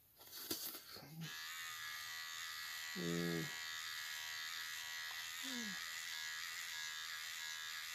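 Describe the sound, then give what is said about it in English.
An electric shaver buzzes steadily while shaving a face without a mirror. The faint, even drone runs through the whole clip, with a few brief voiced sounds rising over it. “Yes, I am shaving my face without a mirror because I don't care about how I look, as long as I'm healthy.”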